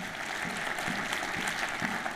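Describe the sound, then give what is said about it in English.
Applause from a church audience: dense, even clapping held at a steady level for about two seconds, with no voices. “Can you please applaud if you agree with me?”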